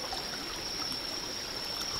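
Water flows steadily in a video game, a continuous rushing trickle with a thin, high, steady whine above it and no voices.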